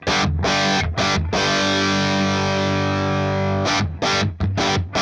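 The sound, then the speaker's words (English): Overdriven electric guitar from a Les Paul Standard with Voodoo 59 pickups played through a Marshall Plexi amp with the fuzz pedal off: a few short chord stabs, one long ringing chord, then a quick run of choppy stabs. “That's the sound of the amp with no fuzz.”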